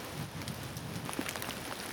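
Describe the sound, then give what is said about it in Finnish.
Hail falls during a Finnish spring, a faint, scattered patter of many small hard impacts ticking irregularly, with no voices. “Rakeita riittää Suomen kevässä.”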